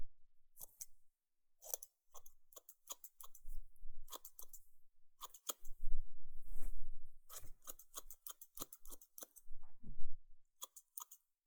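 Scissors trimming hair little by little: many crisp, short metallic snips come in irregular clusters with brief pauses between them, and a soft low rustle sits underneath some of the cuts.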